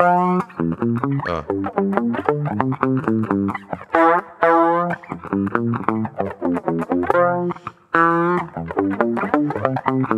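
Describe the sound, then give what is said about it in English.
Electric guitar played through a reverse delay effect, playing a bass line; distorted notes swell in backward with soft, rising attacks, repeating in phrases broken by brief gaps. “I'm doing it on guitar right now. It's supposed to be on the bass, but here's that effect. It's reverse delay.”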